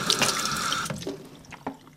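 Running tap water as hands are washed at a sink: a steady, hissing stream for the first second, then broken splashes and drips as the hands move through the flow.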